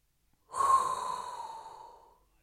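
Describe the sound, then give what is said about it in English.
A single deep inhaled breath, rushing in with a loud onset and then tapering off gradually over more than a second, heard alone. “inhale a hot breath”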